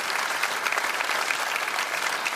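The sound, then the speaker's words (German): Studio audience applause welcoming a guest, a dense, even patter of many hands clapping on its own at a moderate, steady level throughout. “Und ich lasse den Applaus bewusst abebben, um ihn gleich wieder aufbrausen zu lassen, denn wir begrüßen den Leipziger und Nationalspieler David Raum bei uns”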